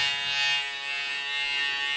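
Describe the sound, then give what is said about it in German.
An electric shaver runs with a steady, bright buzzing drone, even in loudness and alone for two seconds. “Warum machst du so ein dummes Gesicht? Ich rasiere mich. Jetzt.”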